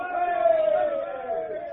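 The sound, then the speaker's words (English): Sailors raise a cheer after being saved when the waves drive their boat to shore: a group of men's voices joins in one sustained shout, fairly even in loudness and wavering slightly in pitch. “Give a cheer, lads. We're saved.”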